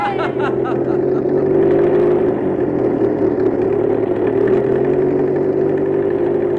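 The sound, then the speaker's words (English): A car engine driving up an old mountain road gives a steady, even drone that holds at one level throughout with no clear revs. “There they go, boys and girls. Sam and the crew are driving up the old mountain road.”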